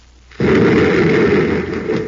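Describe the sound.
Rockets firing with a sudden loud onset that becomes a dense, steady roaring blast and holds unbroken for nearly two seconds.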